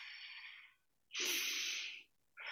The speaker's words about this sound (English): if we breathe in through our mouth and breathe in through our nose and breathe out through pursed lips,